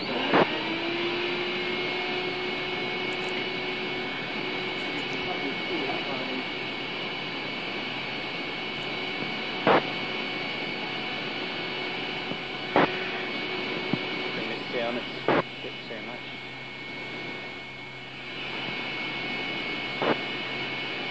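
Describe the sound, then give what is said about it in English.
Vacuum cleaner running with a loud, steady droning whine and hum, broken by a few brief clicks and knocks. “Now, I've just found that when I turn on the vacuum cleaner, I can't hear the receiver, so I'll need to wear headphones.”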